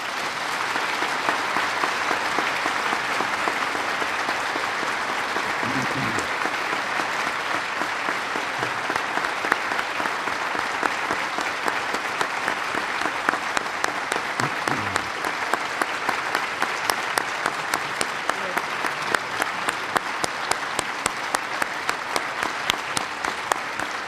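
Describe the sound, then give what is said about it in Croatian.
Thunderous audience applause of respect and thanks at a ceremony, a loud, dense and sustained clapping that rolls on without a break for over twenty seconds. “Zaslužujete jedan gromoglasni pljesak poštovanja, odobranja i zahvalnosti.”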